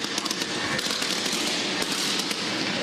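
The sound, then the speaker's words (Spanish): Fireworks explode during a celebration, producing a dense, continuous crackle of rapid pops and bangs that stays steady throughout with no voices. “fuego de artificio. Sigue el festejo.”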